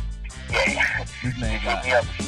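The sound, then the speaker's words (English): A dog yips and whimpers in a quick run of short, high barks mixed with whining cries, loud and uneven in rhythm. “TWR rocking out with my dog Nina.”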